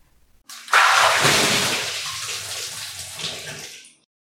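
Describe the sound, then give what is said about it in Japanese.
Water poured to rinse someone in a bath: one sudden, loud rushing splash that holds steady for about three seconds and then tapers off, with no talking. “そろそろ流そうか。はい、流します。”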